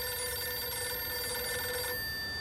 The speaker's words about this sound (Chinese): 孙连仲赶紧给池峰城打了电话。